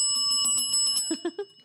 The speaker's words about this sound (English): Ring that bell.